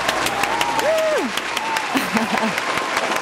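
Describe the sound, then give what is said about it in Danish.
A class applauds with steady, dense clapping throughout, while a voice speaks over the clapping. “Har vi ikke lige en klapsalve? Vi har en klapsalve.”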